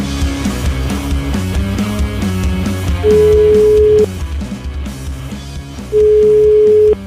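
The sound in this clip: A telephone call rings out with two long, steady ringback tones over a background of music.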